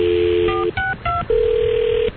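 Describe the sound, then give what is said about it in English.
Telephone sounds as an on-air call is placed: a steady dial tone, then three short, clear keypad beeps at different pitches, then a long, even tone that holds before cutting off. “I'll get Tammy on the phone right now. Hold on. What's Tammy's number?”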